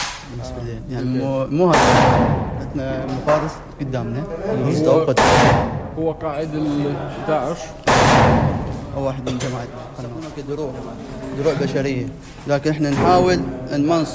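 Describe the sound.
Explosions and gunfire ring out in a war zone at a front-line sniper post, three sharp, loud blasts cutting through steady talking, with smaller cracks scattered between them.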